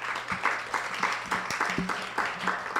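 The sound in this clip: At a talk event in Harrisburg, an audience applauds two speakers taking the stage. The clapping is fairly faint, with separate claps standing out in a loose, uneven pulse over a low background hum.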